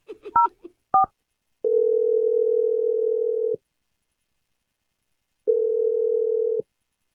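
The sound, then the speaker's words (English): Touch-tone telephone dialing: a quick burst of a few keypad beeps, then two long, steady ringing tones separated by a silent pause while the call connects. “we're going to dial his number right now. Here we go.”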